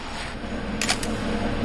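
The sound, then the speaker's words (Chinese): A camera shutter fires while dissected organs are photographed through a microscope. It gives a quick cluster of a few faint clicks over a steady background hiss. “说完了，拍照。”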